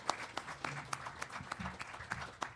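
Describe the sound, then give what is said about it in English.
An audience applauds to welcome a guitarist about to perform. Steady, moderately loud clapping runs without pause through the whole stretch. “y'all give Carol a round welcome.”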